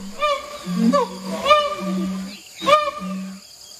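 A siamang gibbon sings, an ape of the forests of Sumatra and the Malay Peninsula: loud, harmonic hooting calls with several sharp upward swoops, broken by sustained low tones and short pauses.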